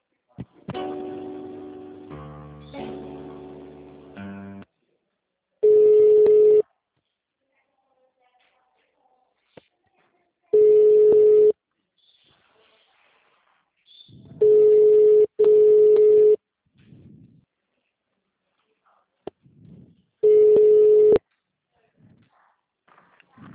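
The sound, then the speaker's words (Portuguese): A telephone rings while a call is being transferred, giving five long, even tones with silent gaps and two tones back to back. A short run of stepped electronic tones comes before them, and a voice speaks faintly. “É o momento que eu vou encaminhar a sua ligação, tá bom?”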